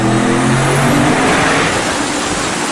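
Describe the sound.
Rebuilt drag-racing car engine of about 1,200 horsepower, running on a dyno test, roars loudly and steadily throughout, a dense, sustained mechanical blare with no pauses.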